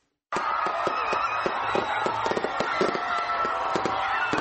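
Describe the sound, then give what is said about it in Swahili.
Fireworks and firecrackers explode over Kampala at a New Year celebration: dense, continuous crackling with many sharp bangs in irregular rapid bursts, fairly loud throughout with no talk. “Ni milio ya fataki, ishara ya makaribisho yaliyonoga ya mwaka 2016 na kuupa mkono wa kwaheri mwaka 2015.”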